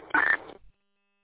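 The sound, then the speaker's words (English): A short electronic beep over a two-way radio: a single buzzy tone lasting a fraction of a second within thin, band-limited radio hiss, then dropping into silence. “Yeah, it's still beeping.”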